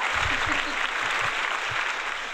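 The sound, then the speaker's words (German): Steady applause, a dense, even wash of many claps filling the whole clip at a moderate level with no clear pauses. “Nein, der Applaus ist so für euch.”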